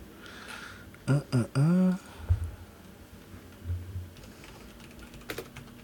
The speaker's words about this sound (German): Du schreibst einfach /roll d20. Wo schreibe ich das? In den Chat.